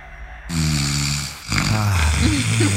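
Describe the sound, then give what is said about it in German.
Snoring from recordings sent in as phone voice messages: a couple of long, low, rattling snores, each with a buzzing harmonic drone, loud and alone. “wunderschöne Schnarcher aus dem ganzen Radio 7 Land per WhatsApp-Sprachnachricht eingetrudelt.”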